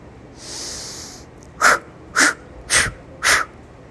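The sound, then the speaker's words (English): Four deep, vigorous breaths blown out forcefully during a meditation exercise, as if blowing out candles. A softer, longer breath comes first, then four short, sharp, loud, evenly spaced exhalations. “Now take 4 deep, vigorous breaths and blow out 4 candles.”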